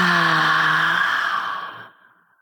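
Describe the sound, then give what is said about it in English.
A long exhale out through the mouth during a guided breathing exercise: a steady breathy rush with a soft voiced tone that fades away to silence after about two seconds. “Again, inhale through the nose. And exhale out the mouth.”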